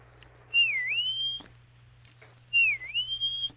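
A person whistles an imitation of a peewee bird's song: two matching clear phrases, each dipping in pitch and then rising to a sustained high note, separated by a short pause with quiet between.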